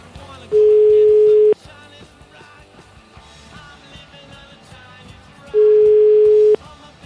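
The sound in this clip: A telephone busy signal on a call to a clinic's switchboard sounds as two long, steady, mid-pitched beeps of about one second each, several seconds apart, with people talking in between.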